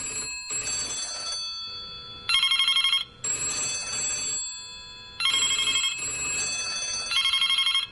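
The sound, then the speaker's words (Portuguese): Several telephones ring at once as a radio station's lines jam with many listeners calling in. Bright, trilling electronic bell tones overlap in repeated bursts with brief gaps, and no voices are heard. “Nunca vi um congestionamento telefônico.”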